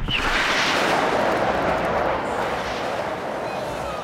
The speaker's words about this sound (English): He and his henchmen try to blow him up with a rocket, and it doesn't quite go the way he wants.